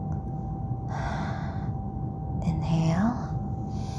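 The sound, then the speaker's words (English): Slow, deep breathing in and out during a guided relaxation exercise gives two long, airy rushes of breath over a steady low hum and faint tone. “Come and inhale and exhale with me. Inhale, exhale.”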